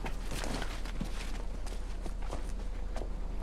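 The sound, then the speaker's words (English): Footsteps climbing stone steps: a steady series of firm, scuffing treads over a constant low hum. “Peacekeepers escort Katniss to the stage. She mounts the stone steps toward the beckoning MC”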